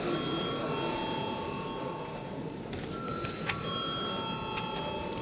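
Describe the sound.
Bell in a parliament ringing to call members to a vote, a steady high-pitched ringing that runs throughout over faint background noise, with a few brief clicks near the end.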